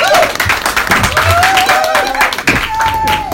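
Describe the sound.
An audience welcoming guests to a stage with loud, sustained applause and cheering. Dense clapping continues throughout, with whoops rising above it.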